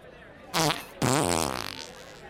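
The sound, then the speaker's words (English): A realistic fart sound effect from a prank device: a short raspy burst, then a longer, fluttering, bubbly blast that trails off. “it makes a really convincing and realistic fart sound”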